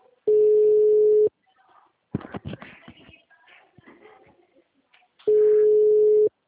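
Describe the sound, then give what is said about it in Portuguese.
Two steady ringback tones mark an unanswered outgoing phone call, each lasting about one second at an even mid pitch, separated by roughly four seconds of rustling and handling noise. “eu tô ligando pra Patrícia”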